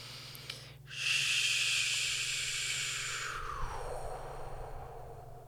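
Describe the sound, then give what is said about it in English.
A long, breathy "shoo" exhale, done as a breathing exercise for releasing anger. A soft, steady hiss holds for a couple of seconds, then fades away, faint and alone. “when it comes to anger, shoo is the sound with breath. So that would go like,”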